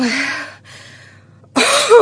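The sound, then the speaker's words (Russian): A narrator's voice imitates an old woman's strained coughing fit: harsh, raspy bursts that fade into a short silence, followed by a sudden loud final burst. “Старуха сначала несколько минут откашливается, надрывая свою разбитую грудь и напрягая на дряблой шее все жилы”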